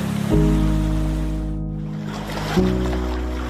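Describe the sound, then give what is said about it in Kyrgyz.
Steady rushing wash of the Ak-Suu river water flowing, a broad continuous sound heard without talk, with a low droning hum over much of it that briefly drops out midway. “Азыр мына оң жак жактагы суу бул Ак Суу дарыясы.”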